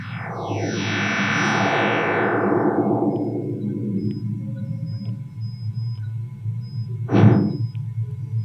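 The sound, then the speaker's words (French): Radio emissions from solar bursts, cleaned and converted to sound, produce two very different events. First comes a long, eerie sweep that glides steadily downward in pitch over several seconds, and later a short, sharp burst follows. “Alors ça, c'était la version des données brutes. L'avantage en numérique, c'est qu'on peut nettoyer les données. Voilà le même avec uniquement les émissions solaires.”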